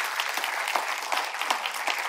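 An audience applauding during a church service: a dense, continuous clatter of many hands clapping without pause.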